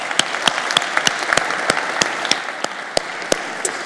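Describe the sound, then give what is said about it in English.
Applause from a church audience: a dense, steady wash of clapping with sharp, evenly spaced louder claps standing out throughout. “For those of you who are in the room, would you please give our online and television audience a big hand?”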